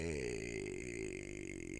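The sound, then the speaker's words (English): A person lets out a long, low, droning burp with a steady vibrating tone that holds throughout, fairly faint. “Pardon me. Bunch of burping.”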